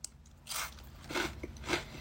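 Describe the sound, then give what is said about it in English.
Faint crisp crunches as someone bites and chews a Hot Honey Mustard Doritos tortilla chip, a few short crunching bursts in quick succession. “Okay, first is the Hot Honey Mustard. I'm going to try just one initial reaction.”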